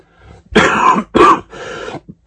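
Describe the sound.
A person with a cold clears their throat and coughs in a short run of rough bursts. Two or three loud, harsh bursts come between fainter ones, with brief pauses in between.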